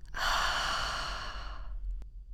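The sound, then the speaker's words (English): A slow, deep breath out through the mouth during a calming breathing exercise: one long, soft, airy exhale that gradually fades away. “We're going to start by breathing in through the nose and out through the mouth,”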